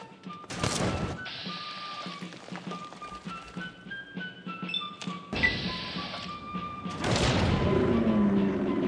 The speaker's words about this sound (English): I switch to grenades here.